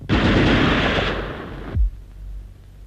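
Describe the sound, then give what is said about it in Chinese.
Gunfire as a sound effect in a radio drama about guerrillas surrounded by enemy troops: a dense, loud burst of continuous shooting lasting about a second and a half, cut off abruptly, followed by a single low thud. “赶快出来，再不出来我就开枪了。”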